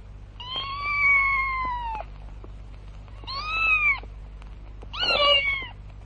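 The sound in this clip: A cat meows three times, with quiet pauses between the calls. The first meow is long and level, the second is shorter, and the third is more strained and wavering.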